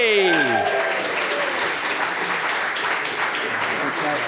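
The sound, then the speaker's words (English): Audience applause welcoming a comedian guest to the stage: a continuous, dense clatter of many hands clapping that holds at a steady, loud level throughout. “Please put your hands together. Welcome to stage, Gary Delaney.”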